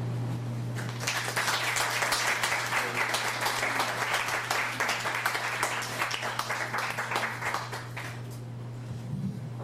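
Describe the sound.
An audience applauds a performer at a reading event. The long, full round of steady clapping stays strong for several seconds and thins slightly toward the end, over a low constant hum.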